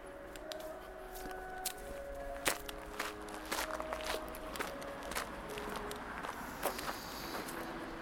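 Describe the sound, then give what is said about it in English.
Footsteps of someone walking back through a park toward a sign at its entrance, a steady run of soft, fairly even steps with faint outdoor background noise and no voices. “So I walk back to the sign at the beginning of the park.”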